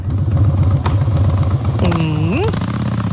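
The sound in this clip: Harley-Davidson motorcycle engine with a loud, pulsing low rumble at idle, then a quick rev whose pitch climbs near the end.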